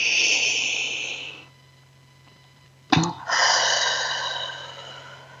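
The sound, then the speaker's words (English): A deep breath drawn in during a guided breathing exercise: a single short, sharp intake of air that breaks a brief quiet, set against a steady hiss before and after. “Let's take another breath together.”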